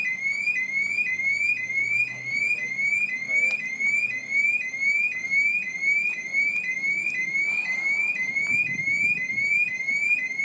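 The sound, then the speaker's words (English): A car alarm going off, a shrill, high-pitched electronic tone repeating in fast, even rising sweeps without pause over a faint low background rumble. “So, yeah, that's a car alarm. God, that's annoying. Hey, look, it's going off again.”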